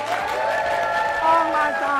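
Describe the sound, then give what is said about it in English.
Audience cheering and applause at a live awards event, dense clapping mixed with raised crowd voices, loud and steady throughout with a slight swell in the middle. “they've never cheered like that before, so that's really for you.”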